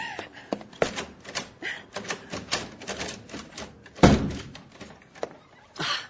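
Many door locks being unlocked: a dense run of sharp metallic clicks, clacks and rattles with one heavy thunk midway, moderately loud, with no talk.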